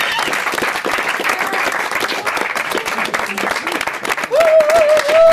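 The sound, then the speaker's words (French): Enthusiastic audience applause for a calypso singer, dense steady clapping sustained for several seconds, with a voice starting to speak over the tail of it. “Calypso Rose, faites encore du bruit pour elle. Bravo.”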